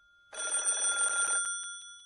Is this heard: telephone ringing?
yes